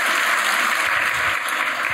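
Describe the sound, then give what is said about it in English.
An evening audience gives another round of applause for the guests of a conversation event, a dense, steady roar of clapping that stays loud and even throughout. “Thank you so much to Marlon and Lily for joining us tonight. Let's get another round of applause.”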